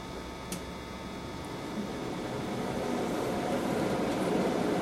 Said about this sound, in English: Well, then you get the full sound of the air conditioner with only half the battery.